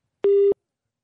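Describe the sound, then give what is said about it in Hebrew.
A busy-signal tone on a phone line after a caller drops off: one short, steady, low beep lasting about a third of a second, then silence. “זהו, אז כנראה שמאיר נפל מהקו, ננסה לחייג אליו שוב”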